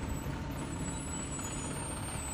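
A tour bus comes to a stop, giving a steady, even wash of engine rumble and broad hiss that holds constant throughout, with no voices.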